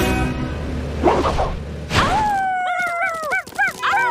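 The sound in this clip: Dogs barking and whimpering: a couple of short barks, then a run of high, wavering whines and yips that rise and fall in pitch.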